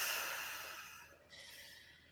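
Deep breathing as a calming exercise: a long, soft, airy breath drawn in, then a brief pause and a second breathy blow outward, both faint and steady with no talk.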